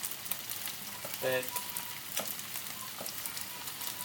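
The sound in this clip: Small, stubby beef burgers frying in a pan give off a steady sizzle and hiss, with a few louder crackling pops scattered through it.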